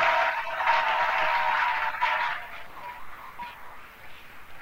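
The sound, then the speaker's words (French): An audience applauds and cheers for the Lord Jesus during a sermon: a dense, continuous wash of clapping that holds steady, then slowly thins and softens toward the end. “Acclamons très fort pour le nom du Seigneur Jésus.”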